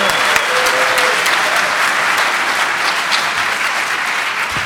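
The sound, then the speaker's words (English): Applause from a DEF CON conference audience welcoming a speaker: loud, dense clapping that holds steady for the whole stretch without a break. “Let's give him a big hand. DEF CON, welcome. Come on.”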